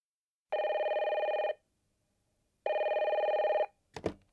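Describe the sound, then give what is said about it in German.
Telephone ringing for a call to an architecture office: two loud electronic rings of about a second each, separated by a silent gap, followed by a brief clatter at the end. “Max Weber ruft bei seiner Firma an und meldet sich krank”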